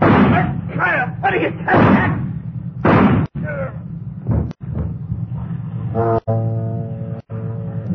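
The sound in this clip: Gunshots in a tense scene aboard a boat with a dinghy: several heavy, booming bursts early on, broken by abrupt cuts and mixed with men's voices.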